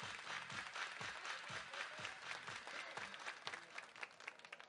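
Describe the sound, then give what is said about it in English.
A baseball crowd claps in a steady rhythm, many hands beating together in time with regular low thumps, faint and continuous throughout. “Everybody clap your hands.”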